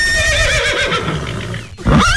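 A horse neighs loudly in a long, wavering whinny that drifts downward in pitch, breaks off briefly, and is followed by a second, shorter burst.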